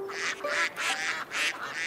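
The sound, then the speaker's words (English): A mother duck with her ducklings quacks in a run of loud, nasal, raspy calls, several in quick succession with short gaps, and no talk over them. “And it sounds as if she has her ducklings with her.”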